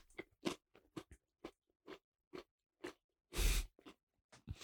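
Someone chews noisily, with a faint series of many crisp crunching bites at irregular intervals and short silent gaps between them.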